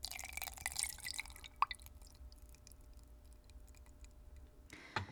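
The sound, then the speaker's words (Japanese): Hot water is poured from a teacup into a teapot of tea leaves, a faint trickle in the opening moments, then a light click and sparse drips, with a brief rush of sound near the end. “では湯飲みのお湯を急須に入れます。”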